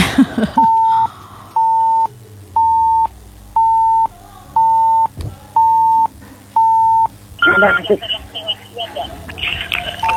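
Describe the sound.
A telephone busy tone after a call-in line drops: seven steady, evenly spaced mid-pitched beeps, with voices briefly before them and louder talk after.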